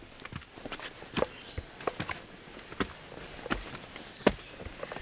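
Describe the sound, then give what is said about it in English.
Footsteps climb stone steps on a trail, each one a crisp, quiet footfall in an uneven, unhurried rhythm. They sound over a faint, steady background. “I always walk up this and pretend I'm in Acadia. Yeah, those are all these stone steps leading up the trail.”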